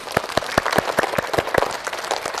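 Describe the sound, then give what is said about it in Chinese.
Students in a classroom applaud the blue team for winning a game. Sharp, distinct claps land in a quick, regular rhythm, many of them close to unison, at a moderate level with no talking. “鼓掌”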